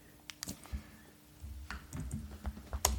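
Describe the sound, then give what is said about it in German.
Irregular clicking of keys being typed on a computer keyboard, a few quick sharp taps followed by a busier run of keystrokes, over a low steady hum with no talking. “Ich tippe einfach.”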